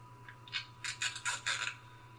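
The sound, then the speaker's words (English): Duct tape being pulled off the roll in a movie teaser gives faint rasping rips in many short bursts, growing denser toward the middle, over a steady low hum. “Sounds like duct tape. It is duct tape.”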